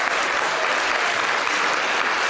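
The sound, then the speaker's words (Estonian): An audience applauding: dense, steady clapping that holds at an even loudness throughout, with no breaks. “Teeme jah ka kõva aplausi veel.”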